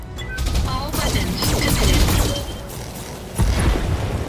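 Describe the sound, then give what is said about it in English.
Video-game weapons fire unleashed with heat at zero: a dense, loud barrage of booms and rapid gunfire blasts rolling together, with a fresh heavy volley striking near the end. “Our heat's at zero, so we're just going to fire frickin' everything.”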